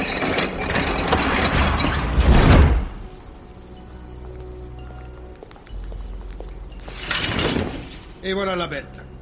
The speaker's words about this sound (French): Le reconfigurateur moléculaire à faisceau quantique divergent, alias les rameaux de la paix. La seule machine capable de remettre de l'ordre dans le monde.